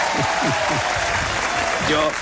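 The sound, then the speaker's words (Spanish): Audience applause for two performers on a cultural TV programme: steady clapping from many hands runs throughout, with a voice talking over it. “Es aplauso para ellos”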